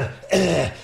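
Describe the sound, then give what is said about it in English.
A man clears his throat once, a short, rough, gravelly burst lasting under half a second after a brief quiet moment. “trying to clear my throat”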